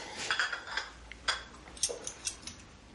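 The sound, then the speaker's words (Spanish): Spoons being set down on a table, a few light, sharp metallic clinks spread unevenly across a quiet background, with no talking. “Olivia pone cucharas en la mesa.”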